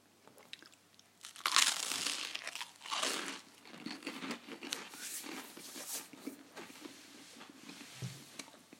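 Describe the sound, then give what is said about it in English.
Someone bites into supermarket granary bread with crisp, crackly crunches. A loud bite comes early, then softer chewing crunches continue steadily, with no talking. “That's the sound of me crunching into granary bread made in my local supermarket, which is called Super Value in Glanmire”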